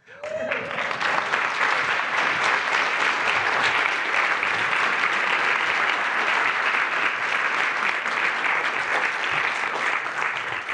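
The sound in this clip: Audience applause welcoming a woman guest onto a stage: loud, dense clapping that starts abruptly and holds steady throughout without fading.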